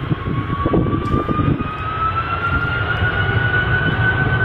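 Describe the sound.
An airplane takes off at full throttle from a windy island airstrip: a loud, steady engine roar with a whining tone that climbs gradually in pitch, and gusty rumbling in the first seconds.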